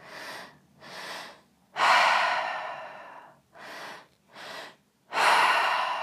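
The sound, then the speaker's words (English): Deep breathing in a guided breathwork exercise: two short inhalations into the belly and chest, then a long, loud exhale through the mouth, a pattern that repeats twice with airy, rushing breaths. “Deep breath into the belly, deep breath into the chest, all in and out of the mouth.”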